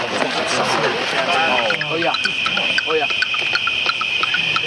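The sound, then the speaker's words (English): A bat detector gives out a steady high whine with rapid clicking ticks, heard after a person talks at the start. “This is a bat detector. I'm going to let you listen to it just for a second.”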